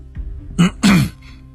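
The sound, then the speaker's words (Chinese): A police inspector gives a short, throaty cough in two quick bursts, the second slightly longer, followed by quiet. “巡官咳了一下”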